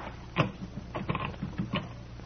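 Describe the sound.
A locked door is tried by hand, its handle rattling in a few short metallic clacks and knocks spread unevenly over two seconds, moderately loud against a steady low hum.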